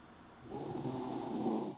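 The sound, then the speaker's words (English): Someone snoring in their sleep: a single low, rumbling snore that holds steady for over a second and stays fairly faint. “somebody's asleep. Huh? Who's snoring?”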